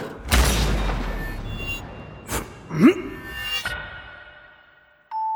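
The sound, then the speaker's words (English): A gunshot in a video game, a sharp, loud booming crack at the start, followed by a few fainter thuds and tones as the sound dies away. “You just dodged a friggin' bullet! How the hell did you do that? Don't know. Quick time event?”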